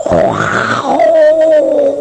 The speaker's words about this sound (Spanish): Al circo que le están cantando los dinosaurios. Perfecto. Ahí le mando el rugido.